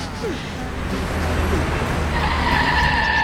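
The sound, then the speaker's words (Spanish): Car engine drone as the vehicle pulls up, reverses and parks, a continuous low rumble with a faint whine emerging toward the end. “Llegamos. Aquí estamos, chicos, ¿eh? Dan marcha atrás. Aparca ahí. Perfecto, ahí sitio.”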